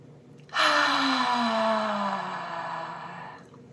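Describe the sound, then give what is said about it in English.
A long, deep breath taken in during a mindful eating practice: a steady, airy rush of about three seconds with a faint voiced tone that slides slightly lower as it goes. “So take a deep breath in.”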